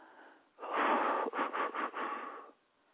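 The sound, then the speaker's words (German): A deep breath drawn during a guided breathing exercise: one soft, long inhalation lasting about two seconds, wavering in a few pulses near its end before fading to quiet. “Also bitte, nehmt einen Atemzug.”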